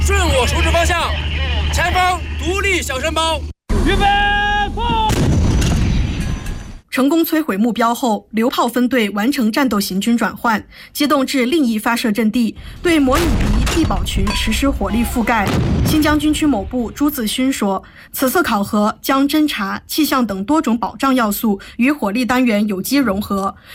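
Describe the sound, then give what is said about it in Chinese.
Howitzers fire at targets during a live-fire exercise of an artillery unit in the Xinjiang Military District. A few heavy, rumbling booms sound amid continuous talk that runs throughout. “依据回传数据，各班组快速装填弹药，对目标实施第一轮火力打击。”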